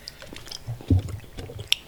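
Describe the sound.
A mouth chews a candied prickly pear cube, making soft, moist, squishy sounds: a few muffled bites and smacks, fairly quiet and irregular.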